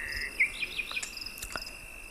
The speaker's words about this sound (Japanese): あなたは今森の中にいます。ゆったりと森の中をお散歩しています。